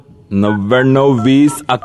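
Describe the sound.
A telephone number is dialled on a keypad, sounding as a loud run of stepped electronic tones that change pitch between a few held notes, followed by a short higher blip.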